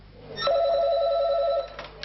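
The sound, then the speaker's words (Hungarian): A telephone rings in a charity service's office in Szeged: one fairly loud, warbling electronic ring of about a second, then fades into quiet background. “Folyamatosan csöng a telefon a Szeretetszolgálat Szegedi központjában.”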